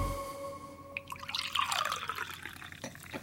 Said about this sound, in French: Ah, petit bruit mousseux, premier indice. Juste avant de parler d'algues, je vous ai apporté une surprise gourmande, un petit apéritif pour ouvrir cette émission. J'ai versé dans vos verres une boisson.